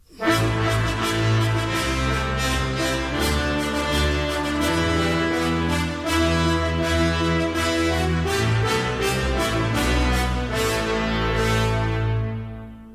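Brass instruments play a folk-song quodlibet: trombones and tuba carry one American folk tune while French horns play a sea shanty at the same time. The full, dense music holds steady and loud throughout, with no talking.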